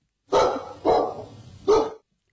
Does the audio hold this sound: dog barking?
yes